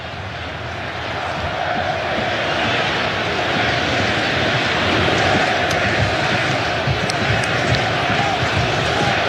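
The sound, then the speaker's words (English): Australian football fans at a World Cup stadium send up a loud, steady roar of crowd noise that swells slightly partway through and holds as a broad, continuous din. “that was the Australian fans down to the right making a little burst of noise”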